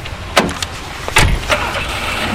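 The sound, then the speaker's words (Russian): Car driving toward a microdistrict of Ufa: a steady road rumble with a few brief, louder knocks and bumps rising above it. “Еду в Уфимский микрорайон Новая Максимовка”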